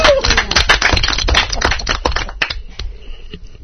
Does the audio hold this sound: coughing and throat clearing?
no

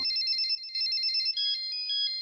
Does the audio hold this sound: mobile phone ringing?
yes

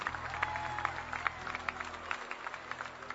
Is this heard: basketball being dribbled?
no

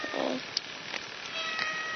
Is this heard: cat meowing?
yes

